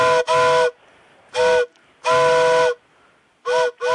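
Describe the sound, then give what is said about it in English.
An approaching train's whistle blows five loud, harmonic blasts of uneven length, the first two close together and the longest near the middle, with soft hiss in the pauses. “Sorry. I have to go. The train's coming. I have to catch the train.”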